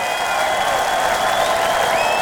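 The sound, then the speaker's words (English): An audience at a live music show in Utrecht applauds and cheers a special guest. Dense, steady clapping runs throughout without a break. “Everybody give it up for our special guest, Marco Hietala!”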